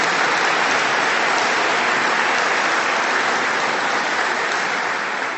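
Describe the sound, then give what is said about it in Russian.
Dense, steady applause from an audience at a formal event on Tatar language, continuous and loud throughout with no voices over it. “Аплодисмент Митимир Шәрипович.”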